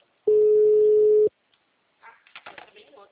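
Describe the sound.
Telephone ringback tone as a call connects: one long, steady electronic beep lasting about a second, then a short pause before a voice answers and people begin talking.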